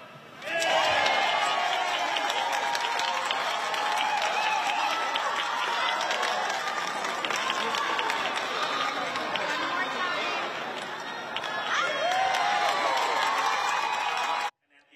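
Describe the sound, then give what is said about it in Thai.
A crowd jumps in celebration at a stadium stage after a Bangkok governor election win. Loud, continuous cheering, shouting voices and thudding footfalls build together, then stop abruptly at the end. “นี่เป็นการกระโดดฉลองนะครับหลังได้คะแนนเสียงมาเป็นอันดับ1ทะลุ1ล้านเสียงของนายชัชชาติสิทธิพันธ์”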